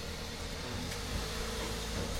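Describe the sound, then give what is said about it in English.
Steady low rumble and broad noise as a car is moved in a garage with the door open, continuous and fairly faint, with no talk. “his fucking brother bought a new car and shit, so he's moving his other car.”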